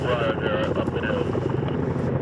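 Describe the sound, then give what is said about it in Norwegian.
Heavy transport helicopters with US forces come in slowly over treetops to land, their continuous rotor and engine rumble roaring at a steady level, with a voice talking over it. “De store, tunge transporthelikoptrene kommer sakte over tretoppene og går inn”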